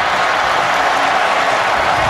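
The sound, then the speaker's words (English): A big stadium crowd cheers as the Baltimore Ravens win the Super Bowl 34-31: a loud, dense, unbroken roar of many voices and applause that holds steady from start to finish. “Big crowd, big cheers, big win for the Ravens”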